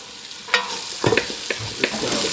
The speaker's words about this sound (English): Okay, and the garlic and the ginger. There we go. Yeah. We add in 2 teaspoons of turmeric and give it a stir.